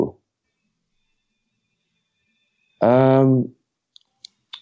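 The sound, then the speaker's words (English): Mouse clicks while opening a hashtag link: three short, sharp clicks near the end, after a brief burst of voice and a stretch of silence. “So, I mean, when you click on hashtag bokeh, let's see what takes you to.”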